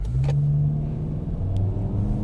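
A car accelerates hard at full throttle on a course marked with cones, its engine giving a loud, steady droning roar that lasts the whole brief moment.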